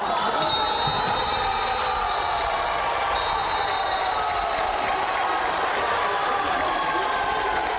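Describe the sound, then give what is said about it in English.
Crowd noise at a futsal playoff final, a steady, unbroken roar of many voices that holds at even loudness throughout. “There was some dramatic futsal action at the weekend. Europa beat Lynx 5-3 in the deciding leg of the futsal playoff final.”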